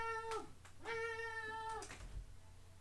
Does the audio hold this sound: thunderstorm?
no

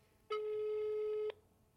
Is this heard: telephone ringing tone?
yes

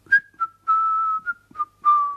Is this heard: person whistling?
yes

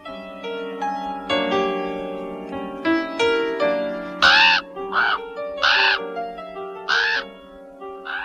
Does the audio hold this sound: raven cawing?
yes

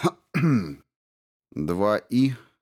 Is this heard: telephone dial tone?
no

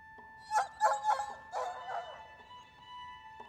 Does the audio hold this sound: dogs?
yes

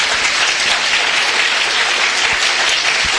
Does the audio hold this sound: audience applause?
yes

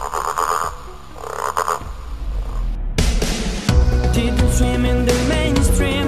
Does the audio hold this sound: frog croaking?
yes

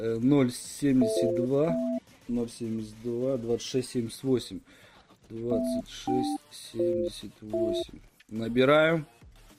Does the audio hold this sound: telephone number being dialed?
yes

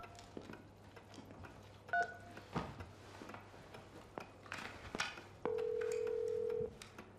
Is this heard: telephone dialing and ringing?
yes

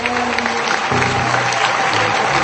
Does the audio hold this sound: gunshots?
no

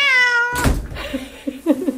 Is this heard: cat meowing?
yes

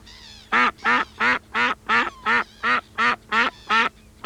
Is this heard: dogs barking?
no

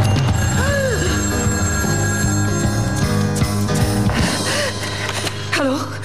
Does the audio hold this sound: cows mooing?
no

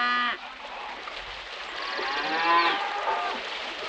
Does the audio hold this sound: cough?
no

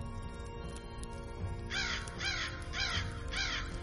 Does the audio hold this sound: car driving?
no

